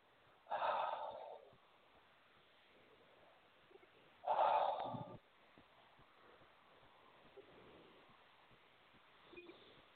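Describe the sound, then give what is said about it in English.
Two deep breaths taken during a guided release exercise, each a broad, airy rush lasting under a second, spaced a few seconds apart with quiet in between and no talk. “Take a nice deep breath.”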